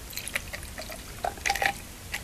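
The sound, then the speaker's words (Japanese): Liquid poured into a glass for a drink later topped with soda water: soft, faint trickling and splashing in a few short bursts, with quiet gaps between them. “でグラスに注ぎます。”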